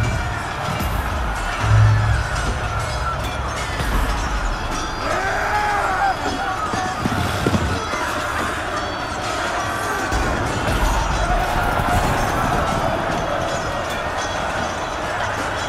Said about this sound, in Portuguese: novo ataque da cavalaria gaulesa. Baixem-se bem. Isto é terrível. É uma guerra sem tréguas.